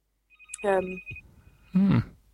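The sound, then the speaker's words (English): A mobile phone rings with a steady high electronic tone that lasts about a second and then fades faintly. Voices are heard around the ring. “is that my phone? Sorry. No, sorry. It's probably Susie's phone. Yes, it is.”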